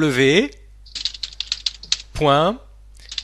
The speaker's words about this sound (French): Alors, qu'est-ce que tu alors redis l'adresse et moi je tape les touches, vas-y.